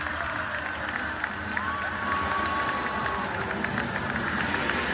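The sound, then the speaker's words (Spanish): Crowd cheering and clapping at the Jaca festival of the first Friday of May, a busy wash of many voices with a brief sustained whistle-like tone in the middle and a lift in loudness partway through. “Este es el sonido de la fiesta del primer viernes de mayo que todos conocen”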